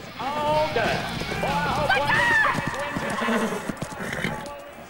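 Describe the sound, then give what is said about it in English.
Hooves of the horse Flicker clip-clop as she slows and comes to a stop. The hoofbeats grow sparser and quieter toward the end, while a voice talks over them. “Katie raises her hands up in front of Flicker. The horse slows down and stops in front of her.”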